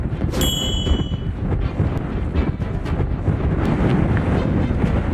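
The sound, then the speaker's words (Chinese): Strong wind howls and buffets steadily around border marker 500 on a mountain post known for gale-force gusts. A loud, continuous, rough roar rises and falls slightly, with a brief metallic ring near the start. “500号界碑常年狂风呼啸，冬季阵风可达8级以上。”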